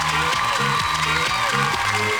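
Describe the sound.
Applause and cheering from a crowd, a dense, steady clatter throughout, over a music bed of repeating tones.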